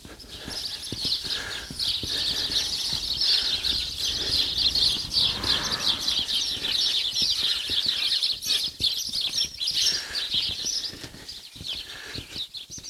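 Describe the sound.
Busy chattering of a flock of sparrows nesting under the ridge of a house roof, with access beneath the tiles: a dense, bright, continuous twitter with scattered clicks and rustling throughout.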